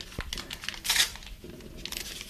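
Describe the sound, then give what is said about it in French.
A paper bag is torn apart while theatre scenery is being prepared, making faint crinkly rips and rustles with a louder tearing burst in the middle. “quand j'aurai déchiré tout le sac”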